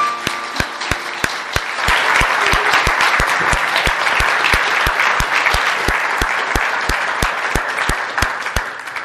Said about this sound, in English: That first clap was for Rebecca.